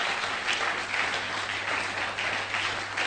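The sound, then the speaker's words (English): A church audience claps hands during a sermon, a loud, continuous wash of clapping with a loose pulsing rhythm over a low steady hum. “Oh, clap those hands.”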